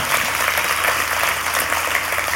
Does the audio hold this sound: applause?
yes